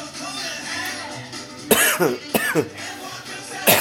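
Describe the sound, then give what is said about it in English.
Harsh coughing from a person who has just inhaled smoke that went down the wrong pipe: several sharp, loud bursts in an uneven cluster, followed by a last cough near the end, heard on their own over a steady low background. “ah, hold his smoke. Excuse me. Sorry about that. that one went down the wrong pipe.”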